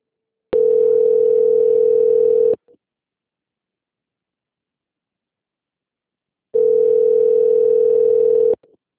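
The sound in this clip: Telephone hold tone plays while a call is being transferred: two long, steady, mid-pitched beeps of about two seconds each, separated by a long silence, with no talk.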